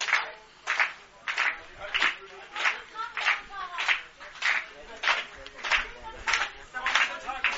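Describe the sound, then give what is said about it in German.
Spectators at an American football game clap slowly for an injured opposing player: many steady, evenly spaced claps about half a second apart in a measured rhythm. “Ja, wir sind ein faires Publikum hier. Wir klatschen auch langsam für die verletzten Spieler des Gegners.”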